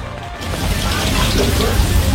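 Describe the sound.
Steady morning rain that has not let up, a dense, continuous hiss of drops that stays even in loudness throughout, with a voice talking over it.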